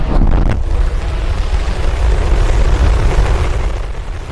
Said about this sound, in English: That is SpaceX's Starship taking off from Texas